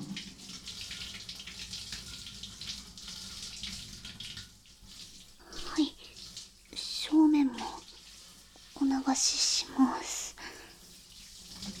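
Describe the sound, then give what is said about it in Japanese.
Water pouring and splashing as someone's back is rinsed, a soft steady trickle at first, then louder intermittent gushes and splashes in the second half. “背中流しますね。”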